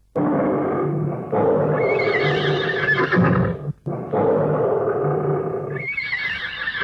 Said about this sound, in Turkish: Küçük şehzade de sürmüş atını devin üzerine.